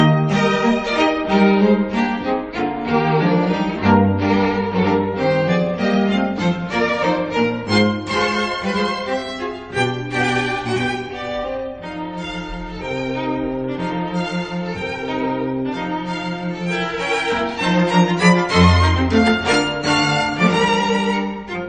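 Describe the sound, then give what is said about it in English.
A minuet movement from a classical piece plays, with instruments carrying graceful, stately melodic lines over a steady dance pulse. The music stays full and even in volume throughout, with no talking. “the minuet sounds like this.”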